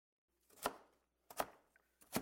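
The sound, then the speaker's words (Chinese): A knife chops vegetables, radish being cut into cubes: three sharp, evenly spaced strikes on a board, fairly quiet, with a faint tap between the second and third. “你个小笨蛋，哪有这样切的？妈妈教你，要这样切。”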